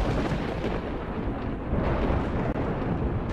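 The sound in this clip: Thunder from a lightning strike on a house during a storm, a deep and continuous rolling rumble that stays loud and broad across the whole stretch without a sharp crack.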